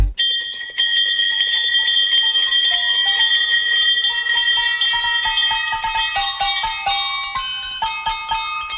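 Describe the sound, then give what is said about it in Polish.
Real victory bells, the kind rung in clinics after someone beats cancer, strung together into a Christmas carol melody: many bright, ringing bell notes with a dense, overlapping shimmer and no voices. “Słuchacie właśnie najradośniejszej kolędy na świecie. Złożonej z prawdziwych dzwonków zwycięstwa. Tych, które rozbrzmiewają w klinikach, kiedy ktoś pokonał raka.”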